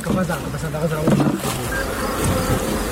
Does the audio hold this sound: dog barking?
no